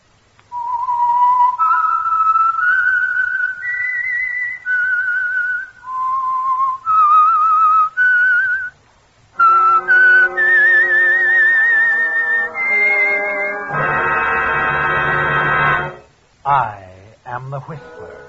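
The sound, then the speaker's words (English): Lone whistled signature tune for a Sunday evening radio drama: clear, high notes step up and down in a simple melody for several seconds, then a louder orchestral passage takes over. “the signal to listen for is this whistle that identifies the Signal Oil Program, The Whistler.”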